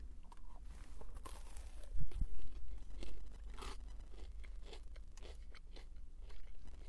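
Faint crisp crunching and chewing as someone bites into a large, extra-crispy deep-fried potato. A few sharp crunches are separated by softer chewing and scraping sounds, with no talk.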